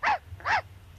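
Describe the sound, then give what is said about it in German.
Two sharp barks from a dog that is approaching, spaced about half a second apart, mid-pitched and loud against a quiet, low background hum. “Oh, Achtung, da kommt ein Hund.”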